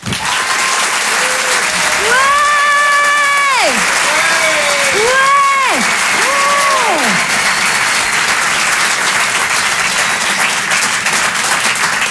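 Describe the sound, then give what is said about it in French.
An audience applauds at a live comedy show with loud, continuous clapping for the whole clip. Voices shout and cheer over it in the first seconds. “On peut l'applaudir très fort.”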